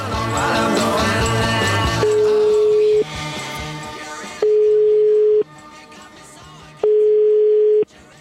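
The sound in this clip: A ringback tone sounds while calling someone at home, with three long, steady, mid-pitched beeps separated by silent pauses and following a fuller, busier passage at the start.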